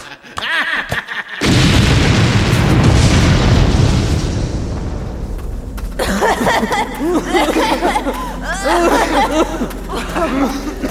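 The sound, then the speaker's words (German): A mine shaft is blown up with explosives: a sudden heavy boom erupts, then gives way to a long, loud rumbling roar of collapse and debris. Voices sound over the later part of the rumble. “Er hat den Schacht gesprengt.”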